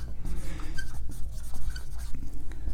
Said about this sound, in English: Now, if I were to ask you, I'm going to write that down.